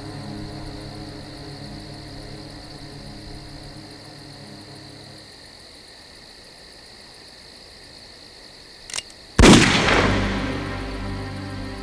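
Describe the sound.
A gunshot from a video game cutscene cracks out loud and sudden, then rings off in a decaying tail, preceded by a brief click and a long stretch of low droning ambient tones.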